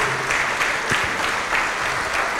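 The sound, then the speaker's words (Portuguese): A church audience applauds in the name of Jesus, dense clapping with a loose rhythmic pulse running through it, steady in loudness across the stretch. “Vem aqui para frente e vamos aplaudir mais ao nome de Jesus.”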